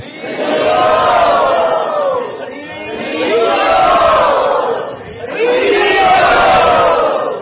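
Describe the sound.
A crowd of devotees chants "Haribol" in unison as a guest is welcomed at Bhaktivedanta Manor. The loud massed voices come in three long swells, each rising and then falling away before the next call.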